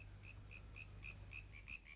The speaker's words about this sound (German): Hörst du nichts? Wind, Frösche und ein Igel im Gebüsch.